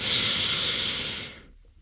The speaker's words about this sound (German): Also ich kann jetzt hier die Luft anhalten oder ich kann ganz bewusst ausatmen oder einatmen.